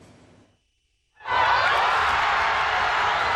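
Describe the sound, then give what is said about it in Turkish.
Crowds in Paris celebrating France's 2-0 World Cup win over Morocco that sent the team into the semi-final. After a brief near-silence, a loud, steady roar of crowd noise suddenly starts and holds. “Kuzey Afrika temsilcisi Fas'ı 2-0 mağlup eden Fransız ekibi yarı finale yükseldi. Paris'teki kutlamalar gece boyunca sürdü.”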